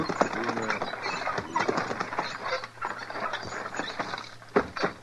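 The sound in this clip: Hooves clopping as a team of horses pulls up, scattered mid-level clops and rattles in a busy, uneven mix.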